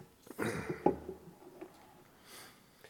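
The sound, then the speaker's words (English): A man clears his throat with a couple of rough, gravelly bursts, then falls quiet apart from faint breathing. “Oh, man. I'm getting something in my throat here. Excuse me.”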